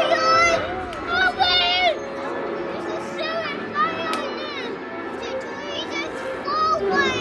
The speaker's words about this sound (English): As the movie gets underway, families pace up and down the aisles, eat special dietary snacks from home, and no one tries to shush the overexcited children.